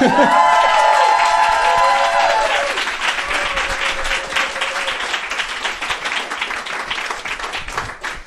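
Applause and cheers from an audience in a room at a campaign event, opening with loud whoops over clapping, then settling into sustained, even clapping that continues to the end.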